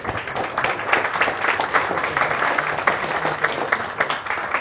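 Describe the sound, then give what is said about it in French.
Audience applause greets two guests at a talk on space exploration, a steady dense patter of many hands clapping that holds an even loudness throughout without pause. “que je vous demande de bien vouloir accueillir avec quelques applaudissements, s'il vous plaît.”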